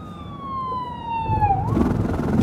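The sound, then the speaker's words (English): A fire truck siren passes by, its wailing tone sliding steadily downward in pitch before breaking off abruptly, after which louder rumbling road noise takes over. “Fire truck going by.”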